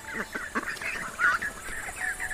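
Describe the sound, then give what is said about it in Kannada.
A flock of ducks quacking: overlapping nasal quacks and honks in an irregular, busy chatter at moderate loudness, over steady background noise. “ಆಮೇಲೆ ಆ ಬಾತುಕೋಳಿಗಳ group ಅಲ್ಲಿ ಬರುತ್ತೆ.”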